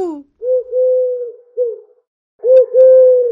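A dove coos in low, mellow, drawn-out notes that come in two short phrases separated by a pause, loud and alone.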